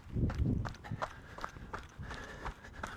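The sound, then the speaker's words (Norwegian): Running footsteps crunching through snow as someone jogs along graves in a cemetery: a quick, steady rhythm of many soft, crisp steps that continues throughout. “Ja, så springer jeg bare langs med gravene.”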